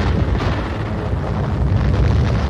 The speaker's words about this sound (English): This is what a napalm bomb does when it hits. Its searing flame spreads for hundreds of feet.